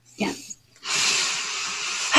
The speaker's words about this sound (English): if we could just start by taking a deep breath together.